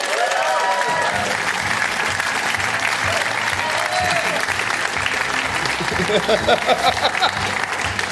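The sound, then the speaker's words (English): Audience applause welcoming politician Jeremy Hunt onto a live show: dense, steady clapping that holds at an even level throughout. “Please give a huge welcome to Jeremy Hunt.”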